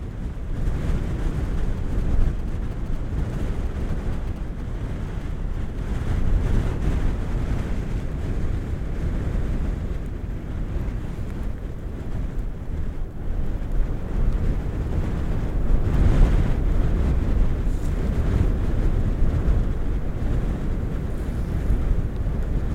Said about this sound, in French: Sur le sommet, dans cette ambiance particulièrement ventée.